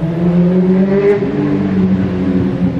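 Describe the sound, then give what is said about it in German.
A motorcycle speeds along a mountain valley road in the Centovalli with a loud, steady engine drone. Layered harmonics waver slightly in pitch as it holds speed, with no voices. “Das Cento Valli ist eine beliebte Töffstrecke. Und wenn man schon nur hört, was da Tempo heisst”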